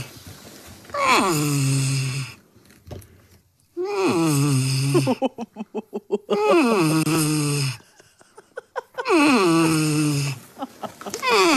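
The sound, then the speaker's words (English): A grumpy, sleepy porcupine woken early to have its cage cleaned gives four long, whiny moans, each sliding down in pitch, with bursts of rapid chattering clicks between them. “They had to wake up P3 one time to like clean his cage, and he was sleepy. And this is what it sounds like when a porcupine does not want you waking him up early in the morning to clean his cage.”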